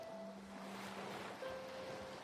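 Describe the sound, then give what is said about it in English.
Ocean waves washing onto shore, a steady, soft roar of surf, with faint sustained tones alongside and no voices. “they leave behind foam that bubbles as it slowly disappears. Following the rhythm of the waves' retreat”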